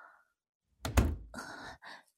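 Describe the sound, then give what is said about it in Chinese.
A door being shut: one dull, heavy thud, followed by a softer, breathy rustling noise. “您把门关上就好。”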